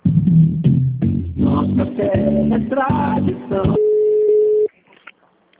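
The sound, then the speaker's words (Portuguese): Telephone line tone during a call transfer: a single steady mid-pitched tone lasting under a second, following a stretch of voices and ending abruptly into near silence. “Tudo bem, eu vou transferir lá para o Márcio.”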